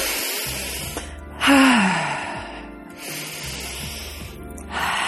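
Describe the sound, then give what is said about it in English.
Deep breaths drawn in through the nose and pushed out through the mouth, a few long, airy rushes of breath separated by short pauses. “take deep breaths in through your nose and out through your mouth. Really short, sharp, deep breaths.”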